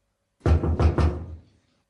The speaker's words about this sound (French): Pendant ce temps, le loup alla tout droit à la maison de la grand-mère et frappa à la porte.